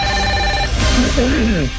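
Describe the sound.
A telephone rings for an incoming caller on the line. Its steady tones sit under dense background noise, and a voice comes in toward the end.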